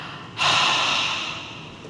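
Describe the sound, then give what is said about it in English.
A person forcefully blows out one long breath, imitating breathing on someone. The airy, hissing exhale starts abruptly and slowly fades over about a second and a half, with no talk. “He breathes on them and he says, receive the Holy Spirit.”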